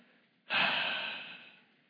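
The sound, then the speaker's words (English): A person breathing out in one long, breathy exhale that starts abruptly and fades away over about a second and a half. “I'm going to ask you to just breathe out.”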